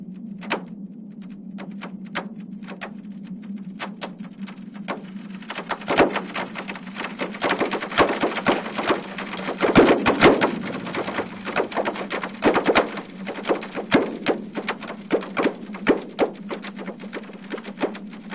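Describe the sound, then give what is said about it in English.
Seismic data from an earthquake swarm on a peninsula, turned into sound: many sharp snaps and pops, each marking one quake, crackle irregularly over a steady low hum and grow denser toward the middle. “That sound is a translation of seismic data made by the EarthTunes app, run by Northwestern University. Each of those snaps and pops represents an earthquake.”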